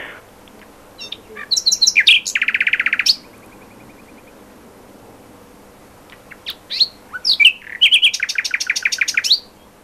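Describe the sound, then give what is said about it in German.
Nightingale song in two separate strophes with a pause between them. Each strophe mixes high whistled and chirped notes, then ends in a fast run of repeated notes, with no other sound. “dieses Pfeifen, das ist das Schluchzen der Nachtigall. Daran erkennt man die Nachtigall ganz besonders gut und natürlich auch daran, dass sie nachts singt. Wir haben mal eine aufgenommen, mal gucken, ob die Ihnen ähnelt.”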